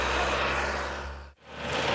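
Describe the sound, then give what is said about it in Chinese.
A rotary tiller works a farm field at full power, its engine giving a loud, steady, mid-pitched drone that dips sharply for a moment and then swells back to full strength. “旋耕机马力全开，不到半小时的时间就将一亩多的农田耕完。”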